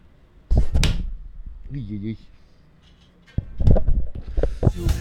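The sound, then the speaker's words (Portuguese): Dull thumps of a forehead being banged against something, a couple of quick knocks early on and then more bumping later, with brief voice sounds in between. “É só bater a testa aqui. Vamos ver, vou testar aqui.”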